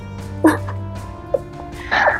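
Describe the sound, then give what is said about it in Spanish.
A pet dog barking: a few short, sharp barks spaced irregularly over a steady low hum. “dialogando con mi perro, preguntándole si esta realmente es la decisión que quiere tomar en este momento. Contestó que no.”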